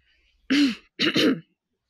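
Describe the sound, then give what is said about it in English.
A woman clears her throat in two loud, rasping bursts, the second longer and slightly broken. The two bursts are separated by a short silence, with no other sound around them. “approach the table and clear her throat.”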